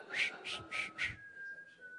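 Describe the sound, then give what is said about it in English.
A person whistles a four-note bird-call tune: four short, breathy, high notes in an even rhythm, then a thin, steady tone held to the end. “Can anybody do the Mockingjay whistle?”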